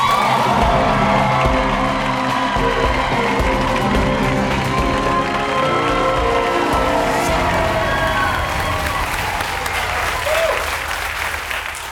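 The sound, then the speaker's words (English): A studio audience applauds and cheers for a guest, the mayor of New York City, with dense clapping, whoops and shouts that stay loud for about twelve seconds and ease slightly at the end. “Guest is the mayor of New York City and a 2020 Democratic presidential candidate. Please welcome Mayor Bill de Blasio.”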